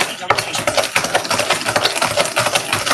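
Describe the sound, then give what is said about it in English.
Spoon stirring a mixture meant as a coating for meatballs, giving a dense run of scraping and clinking strokes that continue steadily without pause. “So I'm going to get out another spoon and we're going to stir.”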